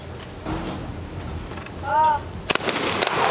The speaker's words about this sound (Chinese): 切奈这一枪打中